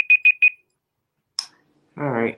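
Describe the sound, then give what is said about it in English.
An alarm goes off with three short, evenly spaced high-pitched beeps, followed by a brief click and then a voice speaking. “That's the alarm.”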